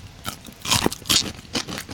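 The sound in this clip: Crisp bites into crunchy pickles made with mustard powder, sugar and salt, giving a few short, bright crunches spaced unevenly, with quieter chewing between them and no voices.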